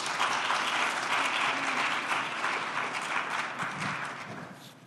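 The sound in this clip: Steady crowd applause greets an author arriving to talk about everyday happiness. The dense clapping runs evenly, then gradually tapers and grows fainter toward the end.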